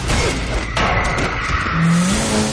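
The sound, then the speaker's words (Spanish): A car reverses and skids in an action scene, its engine roaring loudly while a sustained tire squeal cuts through near the end. “da marcha atrás derrapa golpeando al conductor”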